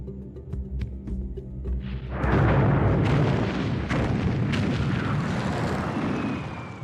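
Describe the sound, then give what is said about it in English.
Warplanes bombing the German capital in spring 1945, late in World War II: after a quieter opening, a loud, continuous, heavy roar of explosions and rumbling takes over and holds steady to the end. “These terrifying weapons, Stalin's followers, were bombing the German capital.”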